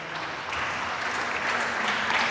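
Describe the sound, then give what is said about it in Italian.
Audience applause during a public speech, dense, steady clapping that holds at an even level without a break. “grazie, questo vostro applauso ci incoraggia e nello stesso tempo ci dà ulteriore forza.”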